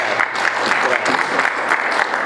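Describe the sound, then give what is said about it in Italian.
Audience applause welcoming a speaker at a talk, a steady dense patter of clapping that stays loud and even throughout with no voices over it. “Passo dunque la parola a Francesco Rad e lo accogliamo con un applauso”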